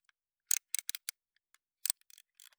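A box cutter is readied to open a cardboard box, making a quick, irregular run of sharp, dry clicks and ratcheting ticks, quiet and heard alone.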